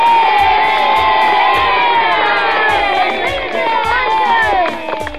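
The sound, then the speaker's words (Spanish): A crowd of children cheers and shouts loudly together with clapping during a kindergarten game played at home. The many high voices keep up a steady din, then ease off slightly near the end. “¿Le damos un aplauso? ¡Muy fuerte!”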